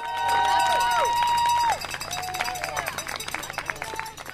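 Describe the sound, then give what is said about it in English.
Hundreds of runners' feet patter in a rapid, dense stream at the Harper's Ferry Half Marathon race in Jefferson County, West Virginia, on a rainy, cold Saturday morning, with crowd voices mixed in. “It's a rainy, cold Saturday morning, but still hundreds of people have come out for Cucuzella's spring race, the Harper's Ferry Half Marathon, 5K, and Kids Run.”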